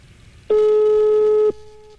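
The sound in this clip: A telephone tone while calling someone: one steady, loud, mid-pitched beep lasting about a second, then quiet, with no talk.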